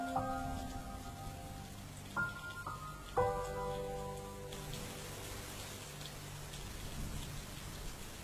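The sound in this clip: Steady rain pouring onto a flooded road, an even hiss throughout, with soft sustained music tones underneath.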